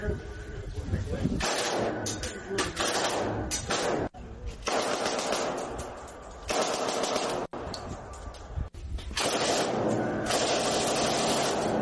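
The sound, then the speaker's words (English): Machine guns firing in loud, sustained bursts of rapid automatic fire, with short pauses between bursts, continuing through the whole stretch. “Well, it hasn't all been bad news. I got to shoot machine guns.”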